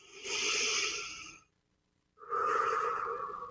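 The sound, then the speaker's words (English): A slow deep breath during a guided breathing exercise: a long, airy inhale, a short silent pause, then an equally long, soft exhale, with no talking. “Another nice deep breath.”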